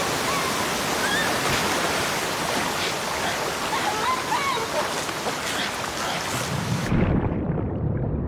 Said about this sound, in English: White Fang falls and is carried away in fast-moving rapids